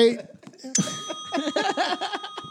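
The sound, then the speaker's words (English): A hand bell is rung once, its bright tone ringing on and slowly fading beneath chuckling and talking voices. “every time one of these fools give a quote from the movie Tombstone, they'll be ringing the bell.”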